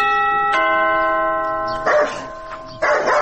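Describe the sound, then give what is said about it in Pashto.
An electronic doorbell sounds a steady, sustained buzzing tone that shifts once partway through, followed by two loud dog barks. “ته درېږه، دا د دروازې زنګ ووهم.”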